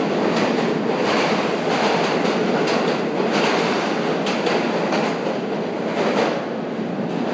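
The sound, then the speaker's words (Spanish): A commuter train pulls away from a hot station platform with a loud, continuous metallic clanking and rattling, a dense clattering racket that holds steady throughout with no voices. “Ahora se va el R. Parece una chatarrería.”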